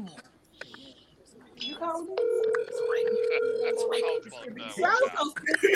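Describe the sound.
Ringback tone from an outgoing phone call: a single long, steady buzzing tone lasting about two seconds, heard among background noise and indistinct voices.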